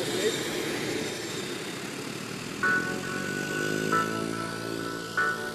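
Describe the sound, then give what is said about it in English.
Aircraft engine roar as an airplane takes off from an airfield near a camp, bound for Somalia: a loud, steady drone with a sustained whine, broken by three brief tonal surges. “Right, wheels up. It's flying out over the airfields, over the camp, over the shrubs, and in about 5 minutes, we'll probably be in Somalia.”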